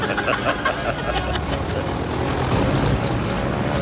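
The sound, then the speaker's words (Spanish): An air-cargo airplane takes off at dawn with a loud, steady, rumbling engine drone that holds evenly throughout, with no other sounds. “Un mecánico retira los inmovilizadores a las ruedas del avión que se eleva sobre el horizonte donde despunta el día.”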